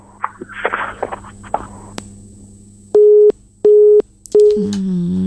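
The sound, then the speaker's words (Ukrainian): A telephone busy tone follows a dropped call: three loud, steady, evenly pitched beeps in a regular rhythm, after a stretch of faint rustling and clicks. “Зірвався дзвінок. Перетелефонуйте, будь ласка, абонент 098.”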